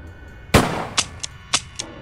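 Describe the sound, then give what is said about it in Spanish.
A single loud, sharp gunshot cracks out, followed by several much fainter, short clicks spaced irregularly after it, with no voices. “Apunté el arma y disparé.”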